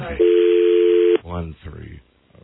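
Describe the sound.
A single steady telephone keypad tone holds for about a second, loud and even in pitch, then stops sharply as a voice starts talking.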